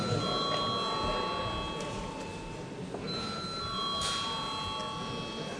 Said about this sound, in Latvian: lūdzu zvanu